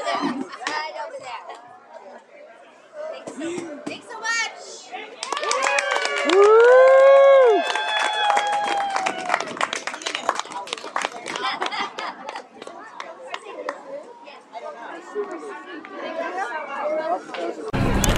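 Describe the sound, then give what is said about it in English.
Crowd chatter at an outdoor May Day celebration: many overlapping voices talk continuously, with one loud, sustained high call standing out briefly around the middle. “All right, I'm here at the May Day celebration, and here's a booth that says Share a Star Story.”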